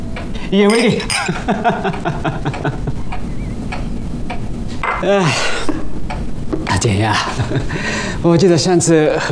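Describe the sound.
Glasses clink together in a toast at a celebratory gathering. The bright, short clinks mix with dishes and cutlery under loud, overlapping talk.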